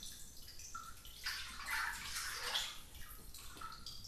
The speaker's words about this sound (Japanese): 体を清めた後は、お湯に浸かって温まりましょうか。